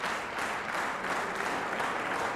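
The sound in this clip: A standing audience applauds after a concert performance, a dense, continuous wash of clapping that holds at an even level from start to finish, with no individual claps or voices standing out.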